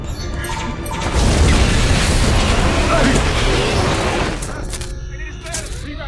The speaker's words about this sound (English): So they got a little blast on the bridge there, which blew out some of the side of the ship.